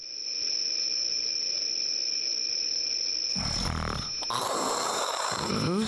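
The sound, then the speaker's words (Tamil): A king snores loudly in a comic drama scene. A steady high whine gives way partway through to a harsh, rasping roar that breaks off briefly and then returns as a drawn-out, growling snore. “குரட்டை சத்தம் கொடூரமாக இருக்கிறது மந்திரி.”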